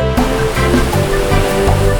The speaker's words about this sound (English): Waves are washing, splishing, splashing.